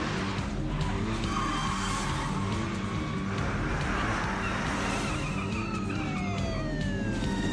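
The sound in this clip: A video game car skids during a police chase, with steady roaring engine noise and screeching tyres, while gliding siren tones sweep through the mix.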